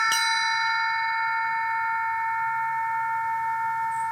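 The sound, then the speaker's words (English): A cowbell is struck once, giving a sharp attack followed by a long, bright ring of several steady overtones that fades slowly, heard alone. “I think this is a cowbell. This one had a great sound”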